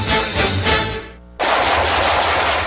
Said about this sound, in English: Nice shooting.